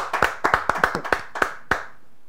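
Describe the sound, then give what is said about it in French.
A church audience claps to acclaim the name of Jesus, with about a dozen sharp claps in an uneven rhythm that stop near the end. “Acclamons pour le nom Seigneur Jésus.”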